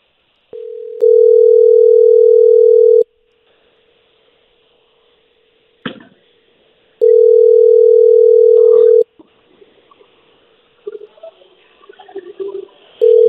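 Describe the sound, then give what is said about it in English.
Ringback tone of a dialed telephone call: a steady electronic tone sounds in a few long pulses of about two seconds each, separated by long pauses filled with faint clicks and brief rustling noises. “Let's dial Kevin up here. All right, here we go.”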